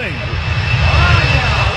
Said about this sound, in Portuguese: Olha! É o avião aí, ó. Só que esse não teve turbulência, não. Esse vai tranquilo, né, Domingo?